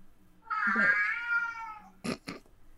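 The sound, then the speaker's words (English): A cat meows indoors at home with one long, drawn-out, fairly loud meow. Two short, sharp bursts follow right after it. “Is that your cat? Kitty!”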